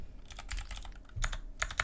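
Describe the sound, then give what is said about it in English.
Typing on a computer keyboard: a rapid, irregular run of many crisp key clicks and clatters, with a few louder clustered strokes, heard alone without talk. “sorry, my keyboard.”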